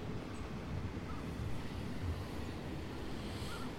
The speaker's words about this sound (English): Well, that sound is two giant Archimedes screws,